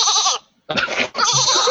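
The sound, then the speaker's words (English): A sheep bleat set as a phone's text message ringtone: a few loud, quavering, nasal bleats separated by a brief silent gap, with no talk over them. “Here's your sheep.”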